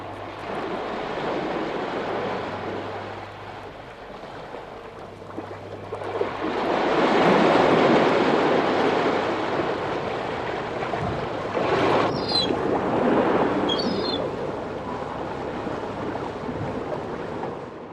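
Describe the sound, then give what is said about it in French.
Sea waves wash against the coast of the Byeonsan Peninsula in South Korea, a broad roaring surf mixed with wind that swells louder midway and then settles into a steady rush. “Allez-y, on part à la mer.”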